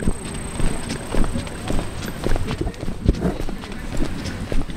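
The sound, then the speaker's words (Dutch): Busy outdoor market in Rotterdam: irregular clattering knocks and footstep-like taps run throughout, with a low murmur of voices underneath. “loop nu in Rotterdam. Ik ben hier op de markt. Het is lekker druk. Veel mensen.”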